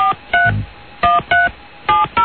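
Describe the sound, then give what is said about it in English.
Touch-tone keypad beeps as a phone number is dialed: short, steady dual tones in uneven pairs separated by brief gaps, with a soft low thump near the start. “Let me call this guy.”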